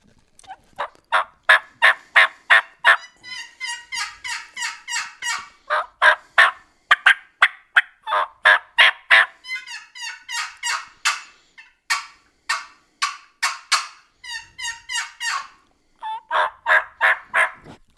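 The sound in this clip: Wild turkey gobbling mixed with many rhythmic yelping notes, loud and alone, in long runs of evenly spaced bursts broken by quicker rattling stretches.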